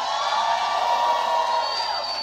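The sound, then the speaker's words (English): Crowd cheering and whooping from an audience at a live gathering: a dense, steady roar of many voices that holds at an even level throughout and eases slightly at the end. “Hey, everybody watching us on YouTube, give our YouTube audience a hand.”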